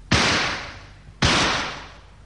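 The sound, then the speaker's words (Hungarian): Two rifle shots fired as signal shots above a lake during an 1888 expedition, each a sharp, loud crack followed by a long, fading rumble, about a second apart. “Jelzőlövést adok a lentieknek. Nézze csak, abból az árokból fejvesztetten rohannak a hiénák és a páviánok. Közibük lövök.”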